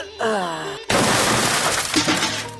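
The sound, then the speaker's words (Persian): A door is broken down with a loud, sudden splintering crash and a noisy, rough decay. A brief voice comes just before the impact, and a second jolt starts at the very end. “بیا که دروازه رو بشکنانیم.”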